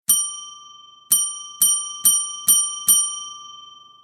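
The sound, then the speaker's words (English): A brass service desk bell, domed with a push button on top and ornately carved with Victorian leaves and flowers, is struck six times. Each bright, high ding rings out and decays. A single ring comes first, then after a pause five more follow in quicker succession. “like a brass dome with a button on top, and you press your finger on the button to ring it and summon the clerk.”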